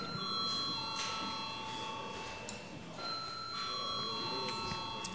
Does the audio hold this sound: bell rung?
yes